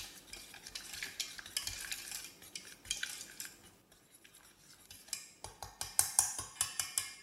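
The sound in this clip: A spatula scrapes a dough mixture of melted butter, egg, yeast and tangzhong starter into a mixer bowl. Many rough, rhythmic strokes run throughout, ending in a run of sharper, quicker scrapes.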